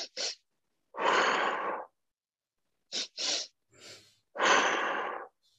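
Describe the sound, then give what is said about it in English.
Physiological sighs: two quick, sharp inhales followed by one longer, breathy exhale, the pattern performed twice, with no talking. “the physiological sigh is one that we found to be really efficacious. So that's a double inhale and a longer exhale.”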